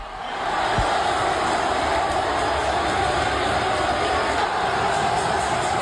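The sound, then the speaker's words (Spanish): A crowd roars in the Roig Arena, a dense, continuous wash of cheering that swells in at the start and holds at an even level throughout, with no single voice standing out. “Sonido del Roig Arena, así sonaba y así rugía el público.”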